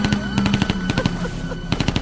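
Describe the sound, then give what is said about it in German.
Automatic gunfire shoots at people in rapid, loud bursts: a dense rattle of sharp cracks that pauses briefly, then resumes in another fast volley. “warum schießen bloß alle auf uns?”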